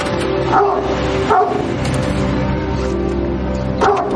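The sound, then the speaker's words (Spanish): A dog barks on a house porch, giving a few sharp barks spaced well apart over steady background noise. “En el porche hay un perro que le ladra.”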